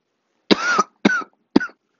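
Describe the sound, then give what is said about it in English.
Three raspy, struggling coughs from a person whose voice is growing hoarse. Each burst is shorter than the one before, and all are loud and alone. “That was a struggle cough. You know those coughs?”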